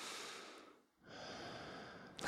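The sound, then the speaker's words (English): Breathing through the nose, two long airy breaths, one inhale and one exhale, separated by a brief pause, soft and close with a slight snort at the end and no talking. “I mean, like, I can breathe through my nose right now. Listen.”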